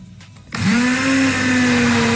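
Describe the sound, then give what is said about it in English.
A blender whirs through sausage and potato soup made with stock. After a quiet start the motor kicks in loudly, briefly spins up, then holds a steady, droning whine to the end. “Okay, soup is blended. It's in a bowl.”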